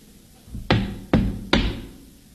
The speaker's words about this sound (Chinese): 待我上前叩我门